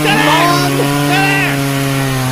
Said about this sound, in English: Man, we got a chainsaw in the studio.